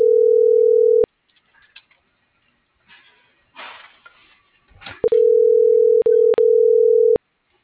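Steady telephone tone sounds while a number is being dialed. It plays loudly for about a second, then low rustling follows, then a second long stretch of the same tone with two brief breaks before it stops.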